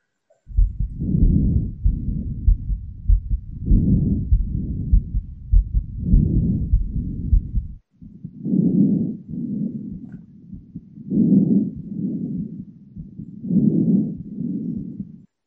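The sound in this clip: Heartbeat heard through a stethoscope, mixed with breathing sounds: low, muffled thumps come in steady paired pulses, fairly loud, with a brief break partway through before the rhythm resumes alone.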